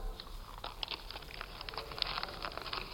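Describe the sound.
Paper being crumpled in the hands, with many sharp crinkles and crackling rustles in irregular bursts, faint and without talk.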